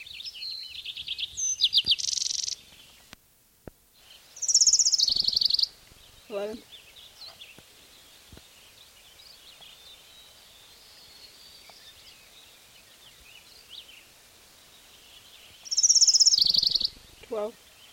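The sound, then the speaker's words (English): Birds singing in three loud, bright bursts of high chirping. Quieter calls, short trills and faint rustling fill the gaps between the bursts. “Yeah, the fucking birds.”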